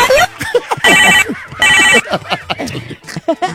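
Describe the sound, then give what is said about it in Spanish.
A telephone bell rings with a harsh, ugly-sounding tone, coming in two loud, buzzing bursts separated by lively talking and interjections. “¡Qué feo timbre el teléfono, ¿verdad? Yo no sé por qué suena así.”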